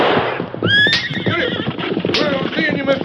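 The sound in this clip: A horse, a cayuse, gives loud, high, wavering whinnies over a busy clatter of hoof clip-clops.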